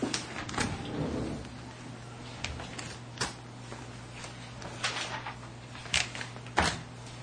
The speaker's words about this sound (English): I have received four sealed responses, and the first one I'm going to open is from Spectra Associates in New York.